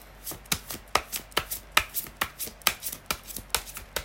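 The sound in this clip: Playing cards being dealt and handled: many rapid, crisp snapping flicks in a steady, even rhythm, fairly faint, with no voices.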